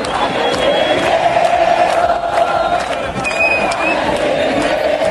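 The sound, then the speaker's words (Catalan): Argentine football fans celebrate in Plaça de les Glòries, Barcelona, ahead of a World Cup final: a large crowd chants together in sustained, tuneful unison, with whoops and shouts mixed into the loud, continuous roar. “És el so de la plaça de les Glòries, l'escenari de la gran celebració de l'Argentina amb un España tiene miedo.”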